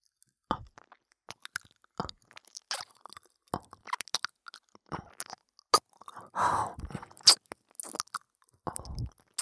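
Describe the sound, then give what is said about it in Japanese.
Ear biting and nibbling in close ASMR style, a run of many small crunchy, wet clicks and nibbles, with a longer soft rustling, squishing burst partway through and no talking. “じゃあ次は、お前の大好きな耳、噛んであげる。”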